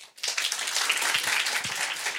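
Clapping from a small group at a restaurant table, starting after a short pause and continuing as steady, moderately loud applause with a few low knocks mixed in.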